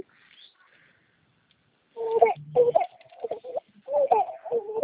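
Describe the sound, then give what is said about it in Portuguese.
A baby cries after a quiet start: a few wailing, wavering cries come in bursts, each rising and falling in pitch. “O senhor tem um nenê? Oi? O senhor tem um nenezinho? Tem. Tô ouvindo chorar.”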